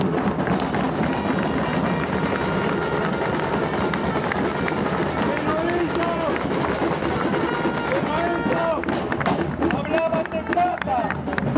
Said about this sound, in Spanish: ¡Un aplauso para ellos!